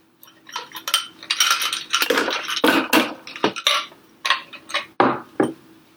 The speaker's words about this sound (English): get a nice frothy cocktail, and now I'll add the ice.